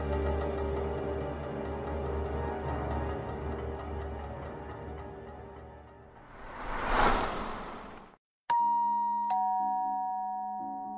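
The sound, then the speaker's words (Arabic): A doorbell chiming at a house door in a dramatized scene: a clear two-note chime that rings out and fades, following sustained tonal music and a swelling whoosh. “الساعة 7 بالظبط رن جرس الباب”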